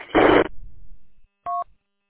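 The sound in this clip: A telephone is dialed for a call: after a short rushing burst of noise, a single touch-tone keypad beep sounds, a brief steady two-tone chirp.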